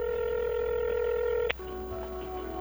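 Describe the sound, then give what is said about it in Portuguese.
Telephone keypad tones as a number is dialed: a long, steady electronic tone that cuts off with a sharp click, followed by quieter tones over a faint background hum. “deixa o pai fazer uma ligação aqui que eu resolvo.”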